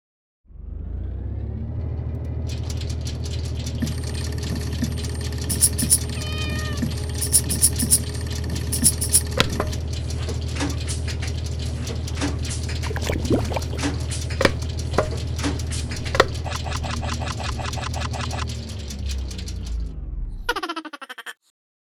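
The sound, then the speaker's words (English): Electronic sound effect of a random number generator running: a steady low drone layered with bright, rapidly shifting beeps and tones, continuous for about 20 seconds before cutting off abruptly, followed by a short final burst. “So let's now run the random number generator.”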